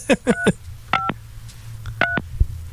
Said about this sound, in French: ça sonne, arrête, arrête de composer.